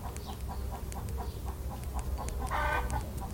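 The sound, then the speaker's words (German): A rooster gives a run of regularly spaced clucking calls over a steady low rumble, with a slightly louder, longer call near the end. “der bunte Hahn, pirscht sich auf leisen Sohlen an. Er lächelt und kräht entzückt.”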